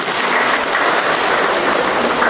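Applause greeting a young man as he sits down: a dense, continuous patter of clapping that stays loud and even throughout, without pauses.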